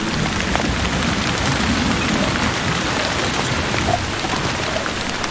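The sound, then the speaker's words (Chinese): Heavy monsoon rain falls in a steady, dense hiss that stays loud and unbroken throughout, without pause or change in intensity. “玛雅必须先度过季风季节，三个月来几乎连续不断的下雨，”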